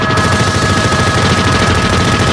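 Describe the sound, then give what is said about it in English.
Fully automatic gunfire from a modified AK-47 firing armor-piercing rounds in a bank robbery shootout, heard as a loud, dense, unbroken roar of rapid shots that holds steady from start to finish. “Officers find themselves against a fully automatic modified AK-47 with armored piercing bullets.”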